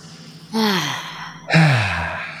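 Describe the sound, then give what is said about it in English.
A deep breath taken before answering a question: two long, airy breath sounds, the second stronger and fuller than the first, heard alone without talk. “Feeling like taking a deep breath before I answer.”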